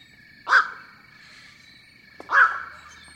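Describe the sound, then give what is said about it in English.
Black-crowned night heron calling: two loud, harsh single squawks about two seconds apart over a faint steady background hum. “Since they are high on the food chain, found over much of the world, and nest in colonies, black-crowned night herons can tell us a great deal about the health or contamination of our environment.”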